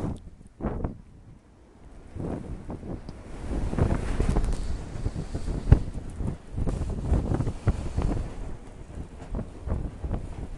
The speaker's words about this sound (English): You hear that wind? Yeah, you're listening, you're excited.